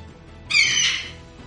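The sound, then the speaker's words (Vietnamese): A single harsh, high eagle screech rings out on its own, with a bright harmonic cry lasting under a second before fading. “Lại thêm một tiếng chim ưng kêu lên chấn động trường không.”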